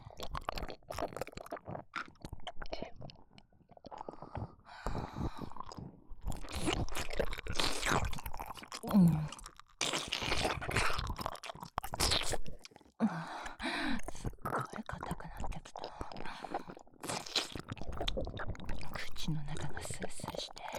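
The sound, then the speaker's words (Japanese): Frisk mints being crunched and chewed: many crisp, irregular crunches and munching bites over about twenty seconds, mixed with soft breathy, whispery sounds. “このフリスク噛み砕いたら、もっと気持ちよくなっちゃうと思うんだ。”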